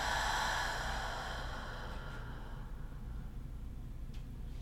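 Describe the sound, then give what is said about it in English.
A slow breath is let out during a guided breathing exercise, a soft, airy whoosh that is strongest at the start and then thins into a faint, lingering rush of air, with no talking. “Inhale. Pause for a moment and exhale.”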